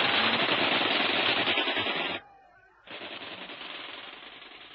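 Bursts of fire from a Bren light machine gun shot from up a tree in the jungle: a dense, loud, rapid rattle that breaks off briefly partway through, then resumes slightly quieter.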